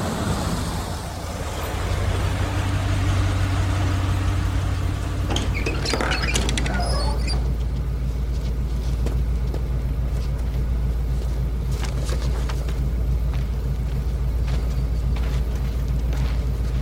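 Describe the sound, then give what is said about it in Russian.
A bus pulls up to a stop with a steady, loud, low engine rumble throughout, joined by light rattling and pattering clatter. No voices are heard. “Автобус подъезжает к остановке.”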